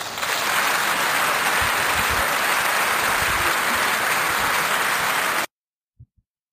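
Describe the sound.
An audience applauds to welcome a guest at a recording session, a loud, dense wash of clapping that holds steady and then stops abruptly, followed by two faint low thumps.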